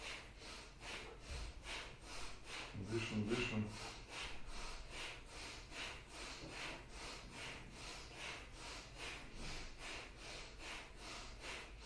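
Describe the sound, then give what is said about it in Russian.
Bhastrika breathing exercise with shoulder movements, heard as rapid, forceful bellows-like breaths that keep an even, rubbing rhythm. The many sharp breaths stay faint and continue alone without pause. “Дышим бхастрику с плечами, разминаем, только мягко, пожалуйста”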